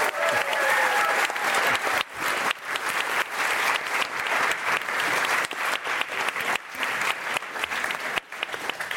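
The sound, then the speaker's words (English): Loud audience applause thanks a guest at a climate change panel event, a thick, sustained burst of clapping that swells and dips slightly but never stops for the full stretch. “All right, let's give it up for Kia. Thanks for doing this.”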